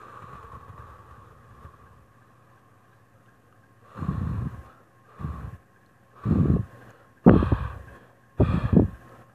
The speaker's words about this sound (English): So let's breathe together. Ready? Inhale through your nose.